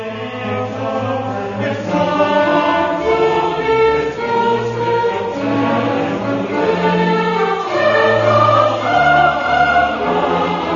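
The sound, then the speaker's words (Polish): A choir sings in the Audi Max lecture hall, blending sustained, harmonized voices into full, steady chords that stay loud and even throughout without speech. “Wsłuchajmy się teraz w kolejny śpiew tego chóru.”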